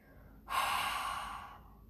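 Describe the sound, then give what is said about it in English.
One deep inhale through the nose during a yoga breathing exercise: a soft, airy rush that starts abruptly, holds for about a second and then fades, with nothing else around it. “Inhale through the nose. Open mouth.”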